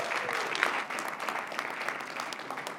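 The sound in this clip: Audience applause welcoming a speaker at a church: steady, fairly soft clapping fills the whole stretch without any talk over it.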